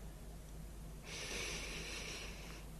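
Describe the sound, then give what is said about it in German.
A single slow breath in during a meditation exercise: a soft, airy hiss that begins about a third of the way in and holds steadily for nearly two seconds before stopping, heard alone with no talk. “Einatmen.”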